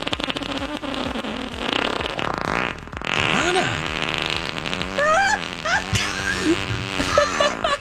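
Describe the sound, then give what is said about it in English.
A voice imitates a fart with the mouth in one long, sputtering, buzzy raspberry that wobbles up and down in pitch for several seconds. “Let's stop saying the hand fart. I don't know how to do it. Sorry. I could do it with my mouth.”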